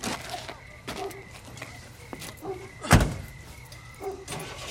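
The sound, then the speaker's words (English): Van door noises as a man climbs into a van: a few clunks and rattles with one sharp, heavy thud midway, over a low steady rumble. “The thin man gets into a van.”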